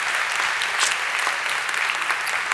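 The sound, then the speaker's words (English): A church audience applauding as college students are welcomed back, with dense, steady clapping filling the whole stretch. “So Summit Church at all of our campuses, would you put your hands together and welcome back this very important population of our church.”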